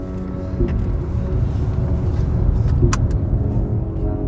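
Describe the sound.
Road rumble of a car driving past sunny hay fields toward a highway, a steady low roar that lasts throughout with a few faint, brief clicks over it and no talking.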